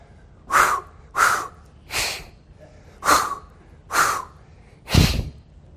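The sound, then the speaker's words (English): Rhythmic breathing demonstrated as in a childbirth class: six sharp, forceful breaths evenly spaced about a second apart, each a short airy burst with silence between, the last one slightly heavier. “I had to take Lamont's class. So we did all of the breathing exercises. We did the”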